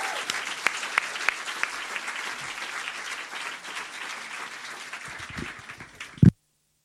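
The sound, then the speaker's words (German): Audience applause welcoming a performer onto the stage in a Ratskeller cellar venue: sustained clapping for about six seconds, with a few sharp claps standing out early, thinning toward the end before a brief loud knock and silence. “Der kommt aus Nürnberg und bekommt natürlich auch wieder einen herzlichen Willkommensapplaus hier im Ratskeller.”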